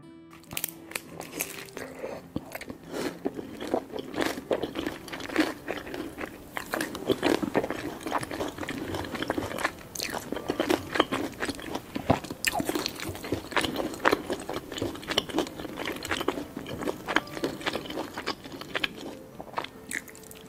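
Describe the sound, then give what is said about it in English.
Eating sounds recorded very close to a microphone: crisp crunching bites, squishy chewing and wet mouth noises in a steady, busy stream, with no talking. “They post videos eating different foods very close to a microphone.”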